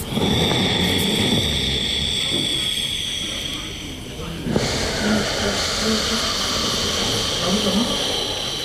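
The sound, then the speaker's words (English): Deep ujjayi breathing through the nose with a vibrating throat, heard as a loud, sustained rushing hiss like ocean surf that dips briefly about halfway through, then continues steadily. “So deep ujjayi breathing is through your nose. You create a vibration in your throat. And it sounds like this.”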